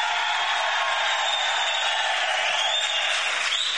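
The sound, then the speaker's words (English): An audience of 1,000 Folsom prison inmates roars and cheers loudly. The dense, steady wash of crowd noise and applause holds at high volume for the whole stretch and stays unbroken to the end. “Now, look, that audience response is very important. Let's see how loud 1,000 men from Folsom can be. Let's hear it right now. Come on.”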